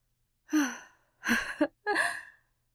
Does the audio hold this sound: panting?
yes